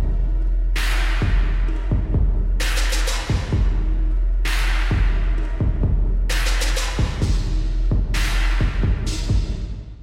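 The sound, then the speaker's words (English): Hip hop beat slowed way down to 65 beats per minute and lowered in pitch: deep, booming kicks and long, smeared cymbal washes recur in a slow, heavy rhythm, loud and continuous, with a low hum underneath and no voices. “Slowed it way down to 65 beats per minute to sound like this.”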